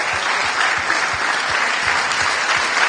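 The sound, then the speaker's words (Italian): Audience applause for a university rector: brief, dense and steady clapping from many hands, loud and even for the whole few seconds, with no talk over it. “Fate un applauso al rettore”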